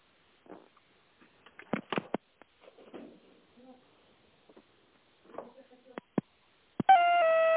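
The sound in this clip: Telephone line sounds during a call transfer: scattered faint clicks and soft noises across a quiet line, then a steady, buzzy electronic tone starts near the end and holds.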